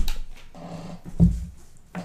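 A dog retching as if about to throw up, a few short, rough, low-pitched heaving bursts with faint breathy noise between them.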